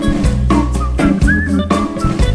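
A person whistles a tune over musical accompaniment with a steady low bass. The whistled notes are bright and melodic, some held and a few gliding in pitch, and they sit clearly above the backing.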